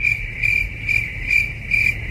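Crickets chirping: a steady, high-pitched trill that swells in a few regular pulsing bursts, heard alone.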